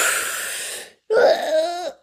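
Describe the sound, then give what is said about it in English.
A slow, deep breath drawn in, then a long, partly voiced sighing exhale, taken during a guided breathing pause. The breath is rough and airy, followed by a short silence before the out-breath tails off. “So we're going to breathe into that real quick”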